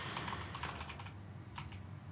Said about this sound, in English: Now I'm going to have to type it up.